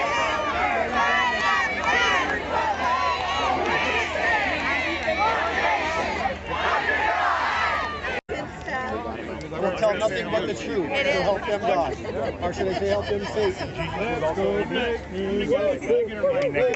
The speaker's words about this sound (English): The crowd is big, ready to go.